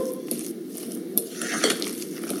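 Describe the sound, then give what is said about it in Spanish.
A utensil scrapes and clicks against a bowl as a lightly beaten egg is stirred into mashed potato, a soft continuous mixing sound dotted with small clinks. “Abrimos el huevo, aprovechamos y lo batimos ligeramente y ya lo ponemos en la papa. Lo integramos por completo”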